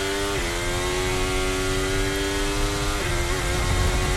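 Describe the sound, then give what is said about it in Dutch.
Formula 1 engine from Lewis Hamilton's onboard camera at the 2026 Belgian Grand Prix: a loud, steady, high whine that drops slightly in pitch near the start and steps down again about three seconds in. “Terug aan boord bij de Lewis Hamilton.”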